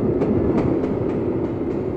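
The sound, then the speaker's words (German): A train thunders over a bridge and into a tunnel: a loud, continuous rumble of wheels and carriages, cut by a regular rhythm of sharp clickety-clack beats from the rails. “Dann donnerte der Zug über die Brücke und fuhr in den Tunnel.”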